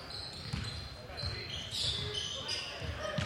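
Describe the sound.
A basketball is dribbled on the court during a La Salle versus Malvern game, with a few dull, thudding bounces under continuous talk.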